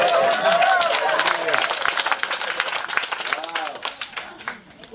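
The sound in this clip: Audience clapping rises in a dense, crackling wash of many hands, loud at first and gradually thinning toward the end, with voices talking and calling out over it.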